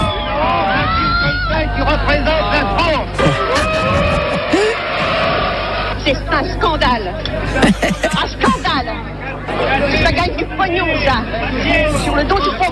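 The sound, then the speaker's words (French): Agitated crowd of film spectators leaving a 1973 Cannes screening of La Grande Bouffe, with dense overlapping voices, chatter and occasional shouts continuing throughout at a loud, steady level. “Nous sommes en 73, à la sortie de la projection de La Grande Bouffe de Ferreri, un long métrage où 4 hommes se suicident en mangeant et en copulant. Le film fait grand bruit. Réaction nerveuse des spectateurs.”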